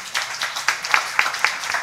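An audience applauds a member of a touring production's crew with sparse, evenly spaced claps that fall at a quick, regular pace and stay at a moderate level throughout.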